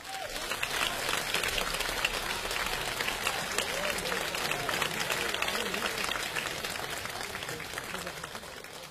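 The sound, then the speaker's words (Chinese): Audience applause at a memorial crosstalk comedy performance as two performers are welcomed, a dense, steady roar of many overlapping claps holding at even loudness from start to finish. “接下来我们用热烈的掌声有请全国著名的相声表演艺术家李金斗、王文林。”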